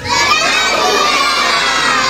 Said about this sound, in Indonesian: Yeay, tepuk tangan untuk kita semua.